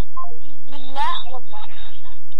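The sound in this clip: A telephone call connecting on a radio phone-in line, with steady electronic tones beside a loud voice.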